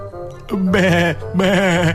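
Sheep bleating: two loud, wavering, nasal calls, each lasting about half a second, separated by a short pause, with a fainter call just before.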